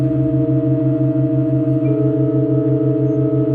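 A sustained church organ tone in Halberstadt, a chord with the newly added note A4: several pitches held perfectly steady and loud throughout, over a low tone that throbs at an even, rapid pulse.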